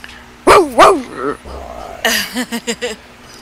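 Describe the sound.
Dog barking: two loud, sharp barks, a few softer whining yelps, then a quicker run of short, clipped yips, loud and alone.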